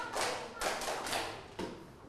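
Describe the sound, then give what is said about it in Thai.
Hand claps from students clapping together in a classroom, a few soft, evenly spaced claps, faint and separated by short pauses. “ปรบมือ5ครั้งปรบมือ5ครั้ง”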